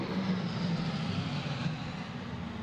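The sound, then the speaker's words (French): A low-flying aircraft passes directly overhead above a harbour, a loud continuous roar filling the whole clip with broad rumbling noise that stays fairly even and eases only slightly toward the end. “Désolé pour ce gros bruit, c'est bien rentré dans les micros. Ouais, on l'a bien entendu, l'avion qui est passé juste au-dessus du port de la Creusille.”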